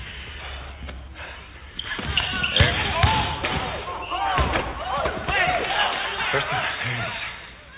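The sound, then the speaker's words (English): A basketball being dribbled during a crossover move, with a few sharp, hollow bounces over crowd noise and talking voices. “I got the ball protected. And it looks like I'm starting to dribble, so you got to react. And when you do, cross over, dribble right by you.”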